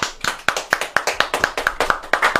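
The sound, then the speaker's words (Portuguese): People clap in unison for Juan, many sharp, evenly spaced hand claps in a steady quick rhythm, loud and clear with no talk over them. “vamos bater palma por o Juan, né?”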